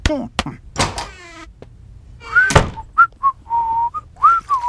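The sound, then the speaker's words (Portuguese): A person whistles a tune, a short melody of several clear, high notes that dip and rise in the second half, after a stretch of brief noises and voice-like sounds. “Você me ouviu assobiando, não é?”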